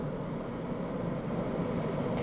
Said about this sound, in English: So we continue to monitor this live shot of Air Force One touching down at Ankara Airport